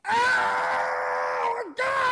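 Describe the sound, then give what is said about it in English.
A voice imitates a screaming male fish with a long, strained, groaning scream held for about a second and a half. Its pitch slides down at the end, then a short break comes before a second scream starts. “Just a bunch of screaming fish. And it's not just screaming. I mean like the boy fish would be like,”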